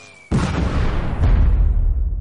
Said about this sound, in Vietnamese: Hai tiếng nổ thật lớn vang lên, xe thiết giáp tông vào phế tích, mà đạn hỏa tiễn cũng đồng thời bắn trúng xe thiết giáp.